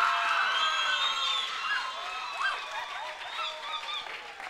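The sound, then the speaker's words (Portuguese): An audience at a poetry slam competition claps and cheers. Steady applause is mixed with high-pitched shouts and whoops that rise and fall throughout. “Dandara, Yurika, uma forte salva de palmas”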